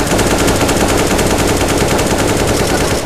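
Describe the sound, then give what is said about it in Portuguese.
Rapid automatic gunfire fills the whole clip as one loud, unbroken burst of fast, evenly spaced shots with no pauses. “O Yuda ele vira rapidamente e ele dispara.”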